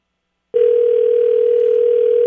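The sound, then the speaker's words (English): A telephone dial tone during a call: a loud, steady, unbroken tone starts after about half a second of silence and holds at one even pitch to the end. “so we dialed her up here, and let's see how this goes.”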